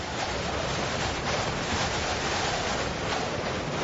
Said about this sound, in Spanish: La lluvia caía con insistencia. El viento era cada vez más fuerte y amenazaba una tormenta eléctrica.